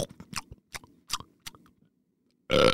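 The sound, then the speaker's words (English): A llama chewing plants: a string of short, crisp, crunchy chews in an uneven rhythm, broken by a quiet pause and followed by one brief, louder burst at the end. “He munched on some tasty plants, chewed them super long,”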